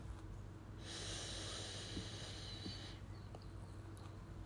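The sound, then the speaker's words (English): A deep breath drawn from the diaphragm during a meditation exercise: one long, airy rush of breath lasting about two seconds, soft and heard alone. “Good, deep inhalations from the diaphragm. And exhale.”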